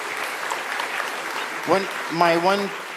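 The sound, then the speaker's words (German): An audience applauds at a church gathering, a steady patter of clapping that a voice briefly talks over toward the end. “Ist das nicht ein Applaus wert?”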